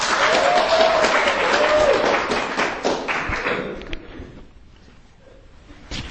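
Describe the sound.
An audience bursts into loud applause to welcome a speaker, thick clapping from many hands that holds strong for about four seconds, then thins out and fades to a few scattered claps.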